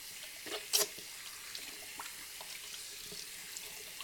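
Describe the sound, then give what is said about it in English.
Water running steadily from a tap as children wash their hands before helping with dinner: a quiet, even hiss with one brief splash near the start, and no talking. “Girls, go wash your hands so you can help me with dinner. Yes, Mom. Come on, let's go wash our hands.”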